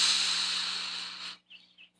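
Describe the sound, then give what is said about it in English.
Deep inhale during a guided breathing exercise: a steady, airy hiss of drawn breath lasts just over a second and stops abruptly, followed by a few faint whistly breath traces. “One more inhale.”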